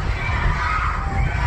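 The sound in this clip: Many people screaming and shouting together, calling out to be let out. The voices merge into a dense, continuous roar that holds a steady loudness from start to finish.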